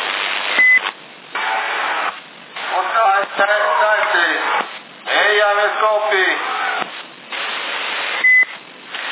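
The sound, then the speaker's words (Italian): A CB radio transmission beep sounds as a short, high electronic tone near the start and again near the end, with narrow-band radio voices talking between them. “Almeno dal bip dovresti riconoscerlo.”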